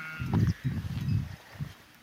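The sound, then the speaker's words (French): A flock of ewes bleats in a few rough, low, wavering bursts. The bleats overlap at first, then a shorter, fainter call follows, with no talking. “je suis les brebis là, je pense que j'ai pas repéré leur berger, c'est un autre troupeau, c'est pas le troupeau de nos amis.”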